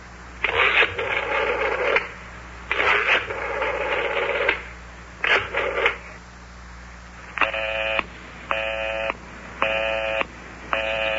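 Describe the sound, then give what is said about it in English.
Telephone dialing and then a busy signal: three bursts of dialing tones, followed by four evenly spaced, steady busy beeps of equal length and loudness. “Listen to that. Line is still busy.”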